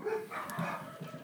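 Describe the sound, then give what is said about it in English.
Dogs bark and yip, muffled and fairly faint, with a few short calls over a steady low background. “Them dogs.”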